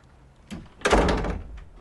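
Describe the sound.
A door sounds as someone leaves a room: a soft knock first, then a louder, fuller thud that fades out, with no talking.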